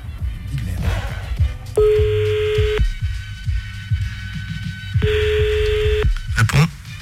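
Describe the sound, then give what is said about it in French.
Telephone keypad tones sound as a number is dialed, two long steady beeps separated by a pause, heard over low background voices and clatter. “premier numéro, vas-y, compose-le là.”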